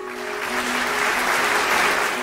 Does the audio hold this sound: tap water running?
no